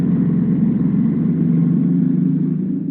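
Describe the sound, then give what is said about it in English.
Car engine hums as a chauffeured car drives away, a steady mid-pitched drone that stays even and eases slightly at the end. “Well, now, Mr. Bond, mademoiselle, allow me to be your chauffeur. My villa is only a short drive away.”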